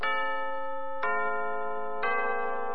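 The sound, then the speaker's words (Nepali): Radio time signal chime marking six in the evening: three bell-like tones at steady one-second intervals, each struck cleanly and ringing on with a rich, harmonic sustain. “समय सूचक अहिले साँझको 6 बज्यो”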